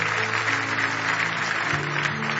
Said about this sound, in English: Give the Lord a big hand clap of praise if you love him.